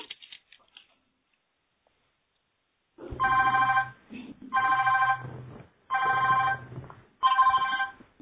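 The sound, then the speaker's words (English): A telephone ringing during a conference call, heard as a buzzy, harmonic electronic ringtone in several pulsed bursts after a few seconds of near silence, each burst loud and even with short gaps between. “Whoever is not on mute and their phone is ringing. Put your phone on mute.”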